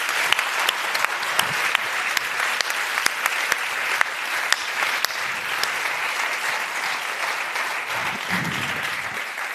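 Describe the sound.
Sustained applause from a live audience at the close of a show: dense, steady clapping that fills the whole stretch, with a few sharper individual claps popping out above the mass.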